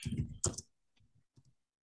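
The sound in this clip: Soft computer mouse clicks while browsing a Bible study program: a couple of faint, quick taps after a short louder burst of sound.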